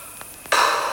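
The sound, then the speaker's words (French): Someone blows a strong gust of air in a storybook scene about the king of the air. A few faint puffs come first, then a loud, steady breathy whoosh that starts abruptly and keeps going. “Tu n'as pas fini de souffler comme ça. Tu déranges mon air.”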